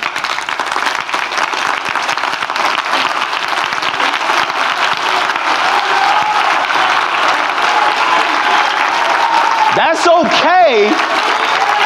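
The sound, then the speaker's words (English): Sustained audience applause fills the whole stretch, a dense, steady clapping from a crowd, with a short rising and falling vocal whoop standing out near the end. “So when you give him a round of applause, I want you to give it from a place”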